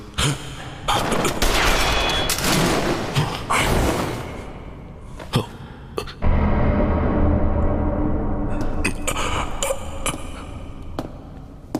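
Gunfire rattles in a dense, loud fusillade of overlapping shots for the first few seconds, then breaks into scattered sharp reports over a sustained noisy rumble.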